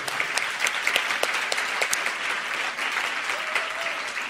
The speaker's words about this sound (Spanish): Un aplauso para Francisco, claro que sí.